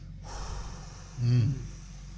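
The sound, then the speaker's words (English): A sprinter demonstrates the deep breath taken in the starting blocks before a race. A brief, sharp breath lasts under half a second over a low, steady background rumble. “when I get in the blocks, I take a deep breath. I'm like this.”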